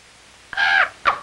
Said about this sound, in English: He calls to the bird.